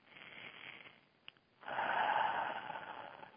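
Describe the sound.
One deep human breath: a soft, airy inhale, then after a short pause a longer, louder breathy exhale that fills the rest of the moment, with no talking.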